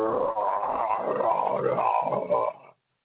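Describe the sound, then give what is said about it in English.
A person vocally imitates a growling stomach: a low, rumbling, gurgling growl lasting about two and a half seconds before cutting off abruptly. “I'm standing by this corner, and all of a sudden my stomach goes,”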